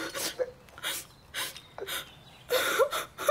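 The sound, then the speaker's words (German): Someone crying in sobs: several breathy, gasping bursts with whimpering catches, separated by short pauses and ending in a longer, louder run of sobbing. “Wer weint denn da?”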